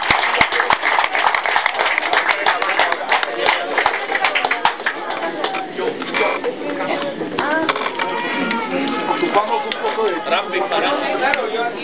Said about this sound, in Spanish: Lo recibamos con un fuerte aplauso.